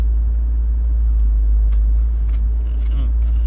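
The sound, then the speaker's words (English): Loud, steady low rumble of a car engine, a heavy constant drone that holds evenly throughout with no clear change in pitch. “Again, apologies for the noise. It's my car. It's loud.”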